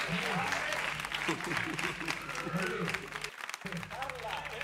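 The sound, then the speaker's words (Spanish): Continuous applause from a crowd after an entertainment group's set, with a voice speaking over it and a brief dip in the clapping near the end. “Aplauso para Carla, claro que sí.”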